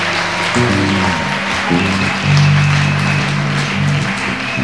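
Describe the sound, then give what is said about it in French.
Congregation clapping for Jesus during a bilingual French and English church service, a steady patter of hands over sustained low musical tones. “Acclamons Jésus. Let's clap for Jesus.”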